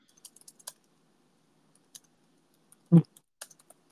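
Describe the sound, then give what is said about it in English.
Sparse keyboard clicks from someone typing an email: a few faint, irregular keystrokes with one heavier thump near the end, with no voices. “No, I've been trying to right now, like, write an email. So you are the clickety-clackety. I am the clickety-clackety right now.”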